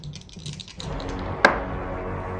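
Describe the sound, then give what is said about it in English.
Two dice are rolled during a tabletop fantasy role-playing game, producing a quick run of light clattering taps, then one sharper knock as they settle. “Roll two dice.”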